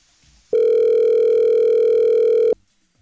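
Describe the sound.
A telephone ringback tone from a call placed to a contest winner: one steady, mid-pitched electronic tone lasting about two seconds, starting and stopping abruptly over a quiet background.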